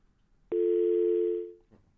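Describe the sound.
A steady telephone line tone on a call-in line, sounding as one unbroken, even electronic note for about a second before it fades out.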